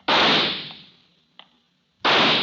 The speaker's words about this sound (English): at the FBI pistol range, Special Agent Jim Taylor is finishing his practice round when local policeman Earl Dawson approaches